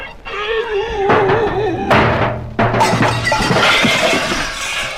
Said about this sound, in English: So for your first scene, you go over this cliff in a barrel.